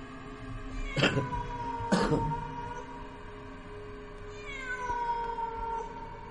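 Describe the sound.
A stray cat meows twice in loud, drawn-out, rising cries about a second apart, followed by a quieter, sustained tonal sound that lingers to the end.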